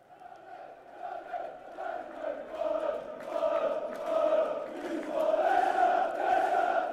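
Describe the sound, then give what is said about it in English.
Leicester City football fans singing a chant together, a tuneful mass of voices that begins faint and gradually swells in loudness while holding its melody. “This is the call of the fans of Leicester City.”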